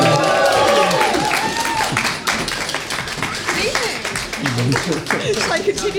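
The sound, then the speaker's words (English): Audience applause at an evening awards event as two helpers are introduced. Dense, loud clapping runs throughout, with cheering voices mixed in. “Give them a big hand.”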